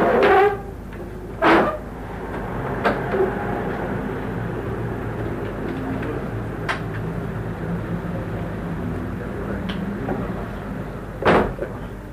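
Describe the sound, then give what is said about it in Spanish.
Roller window blinds being raised, giving a few short, sharp rattling bursts over a steady low hum. “¿Quieres abrir un poco más las ventanas? No, que abro las persianas estas.”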